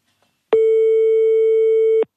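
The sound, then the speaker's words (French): A single steady ringback tone on an outgoing telephone call, one mid-pitched, even buzz lasting about one and a half seconds on its own, with silence before it. “troisième sonnerie.”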